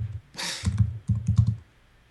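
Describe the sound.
Typing on a computer keyboard, a short spurt of several quick clicking keystrokes in two small clusters, crisp and isolated with no talk over them.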